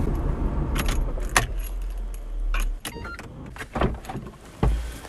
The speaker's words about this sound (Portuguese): Marcha ré e eu vou andando.